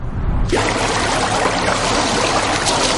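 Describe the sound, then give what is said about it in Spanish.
Water splashing and churning as a person swims laps in an indoor luxury hotel pool; a quieter start gives way to a loud, continuous rushing wash of water. “Robert se da un baño en una piscina solitaria y cubierta del lujoso hotel, nadando de un lado a otro”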